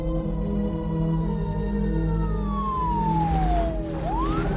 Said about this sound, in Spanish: Una ambulancia llega por una calle y para junto a varios coches de policía.